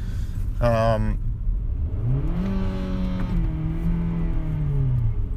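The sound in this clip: A car engine revs after the car slips into neutral when a flying water bottle strikes the gear selector during sudden braking in traffic. A brief voice comes first, then the engine note climbs and holds at a steady pitch.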